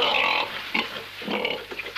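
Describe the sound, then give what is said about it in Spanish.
A pig oinks in a recorded sound effect, giving a few short, nasal grunts at moderate volume. “No, este cuento no tiene chanchos.”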